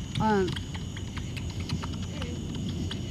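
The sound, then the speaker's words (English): Bats click while echolocating at night in a New York City public garden in the Bronx: faint, quick, repeated clicks over a low steady hum, with one brief descending chirp near the start. “And those little clicking sounds you heard, that was the sound of bats echolocating.”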